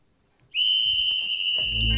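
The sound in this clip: A whistle blown during a ball-juggling drill. It gives one shrill, piercing tone that starts abruptly after half a second and holds loud and steady to the end, with a low rumble joining near the close.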